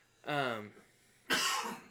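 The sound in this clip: Coughing from choking on nothing: a voiced, throaty hack followed after a pause by a harsh, breathy cough burst.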